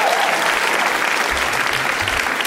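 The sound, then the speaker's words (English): Applause from a live audience for the guests at a show, a dense, steady wash of clapping that holds at an even level from start to finish. “Can we please give one more hand to all our guests tonight?”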